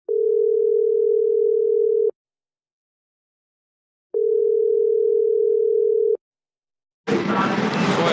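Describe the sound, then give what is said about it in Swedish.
Telephone ringing tone heard while placing a call: two long, steady, mid-pitched tones of about two seconds each, separated by two seconds of silence, then a louder noisy burst cuts in at the end. “Jag testar att ringa upp honom igen här då.”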